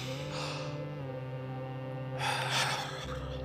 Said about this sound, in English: deep breath.